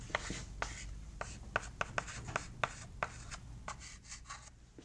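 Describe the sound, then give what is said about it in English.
A marker drawing arrows on a board makes many short, scratchy strokes in an uneven rhythm. The strokes are quiet and come alone, with no talk. “And if I kind of had push on X1, that's how I'm going to draw my arrows.”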